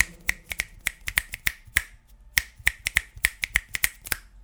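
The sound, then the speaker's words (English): Fingers snapping many times in quick, sharp, bright clicks with an uneven rhythm and a short pause midway. No other sounds. “That was me snapping my fingers.”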